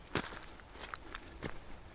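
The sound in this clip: Footsteps of someone climbing back up a hill in the Pennines in the mud: a few soft, uneven steps, two of them heavier thuds, over a faint outdoor hiss.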